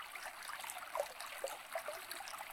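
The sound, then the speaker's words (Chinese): Water flows steadily in a stream, a quiet, even hiss of running water broken by small trickling splashes, with no voices. “你就把你的注意力放在这个流水的声音上，听这个流水的声音”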